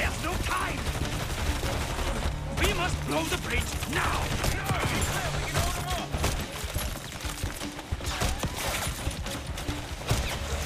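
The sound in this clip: Machine gun fire in a video game rattles on in dense, continuous bursts of rapid shots for about ten seconds, with people talking over the gunfire.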